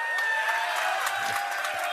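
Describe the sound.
Crowd noise from fans gathered before a South Carolina game, a steady, fairly faint din of mingled voices and bustle with no clear peaks.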